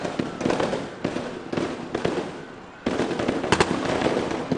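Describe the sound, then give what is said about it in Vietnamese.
Gunfire from a live anti-terror drill, with special forces coming down from high ground by tactical vehicle and security officers closing in. Several sharp, loud shots crack over a steady noisy roar, with a short lull midway. “Lực lượng đặc nhiệm từ điểm cao xuống xe chiến thuật kết hợp với sĩ quan bảo vệ tiếp cận nổ súng tiêu diệt nhóm khủng bố”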